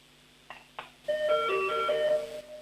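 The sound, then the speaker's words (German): An electronic doorbell plays a short melody of bright, clear tones lasting over a second. Two brief clicks come before it, and a faint low hum runs underneath. “In Tirol werden jetzt Türglocken geläutet.”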